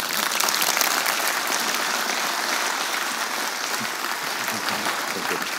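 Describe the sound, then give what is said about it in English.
An audience applauds to welcome a lecturer at a talk in Amsterdam, steady dense clapping that stays loud and even throughout without pause. “Want a warm welcome, uh, a big hand for Dr. Daniele Ganser.”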